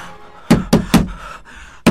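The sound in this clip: Knocking on the door of a house: four heavy, sharp raps, three in a quick, even run and a fourth after a short pause.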